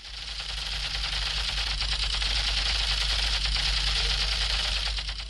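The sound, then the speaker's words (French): Toy Kalashnikov gun firing in a wooded area of Yaoundé, a loud, steady, rapid mechanical rattle that runs unbroken for the whole clip, with no voices. “As you can see, I'm using my Kalashnikov gun to shoot and kill enemies.”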